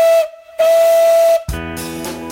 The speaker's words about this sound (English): But how about on board a steam train?